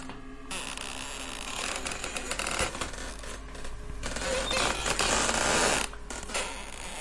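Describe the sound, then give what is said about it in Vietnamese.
Creaking of bamboo stalks rubbing together, a continuous grinding, crackling texture over a low hum, swelling and easing without clear breaks. “cùng với tiếng những thân tre cọ vào nhau ken két, nghe đến giận cả người.”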